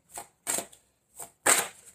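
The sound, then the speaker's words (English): A card is drawn from a tarot deck during a reading, heard as a few soft, papery swishes and snaps in short, separate bursts with quiet gaps between them. “I'd like to have one more card for the sign of Libra. Tell me, take this one.”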